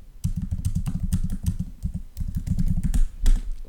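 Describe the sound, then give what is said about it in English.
Rapid typing on a computer keyboard as someone enters a Google search. Many quick, crisp keystrokes clatter in fast bursts, with a brief pause midway before the typing resumes. “Okay, let me Google this.”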